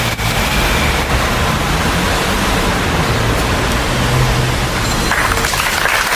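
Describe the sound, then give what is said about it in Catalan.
Applause breaks out after a minute of silence outside a town hall, a dense, steady wash of clapping that holds at an even loudness throughout without clear individual claps. “Aplaudiments després del minut de silenci davant l'Ajuntament de Gandesa”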